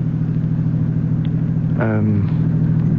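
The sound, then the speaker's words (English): A car drives along a road in the evening. Its engine gives a steady, low, droning hum that runs unbroken through the whole clip. “Hey, Dad, you've been driving since supper.”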